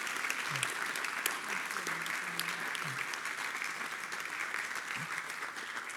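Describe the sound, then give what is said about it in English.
Applause from an audience for a couple, a quiet, continuous, even patter of many hands clapping with a faint voice briefly beneath it. “Can we give it up for this couple?”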